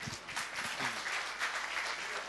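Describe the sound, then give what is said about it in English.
Faint audience clapping at a lecture, a soft, scattered patter of hands that carries on evenly throughout. “Clap.”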